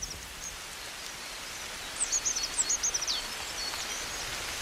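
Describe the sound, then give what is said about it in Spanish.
A coal tit sings in midwinter cold, a short, fast phrase of thin, high notes midway through, faint over a steady rustling hiss. “En pleno invierno, con el frío, un carbonero garrapinos está cantando como anticipándose a la primavera.”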